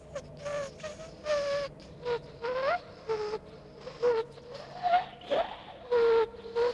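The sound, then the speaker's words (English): Dissonant whistling of wind through chinks in a wall: many short, tonal whistles that waver and bend up and down in pitch, overlapping in clashing tones over a faint low hum. “as different little pock marks and chinks in the armor or chinks in the wall here start to whistle, much like you are inside of a flute”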